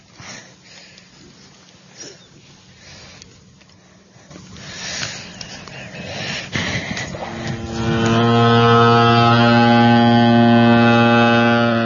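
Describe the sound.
Loud, deep horn of a launch boat being boarded, a steady sustained blast that starts after a stretch of low background noise and holds to the end.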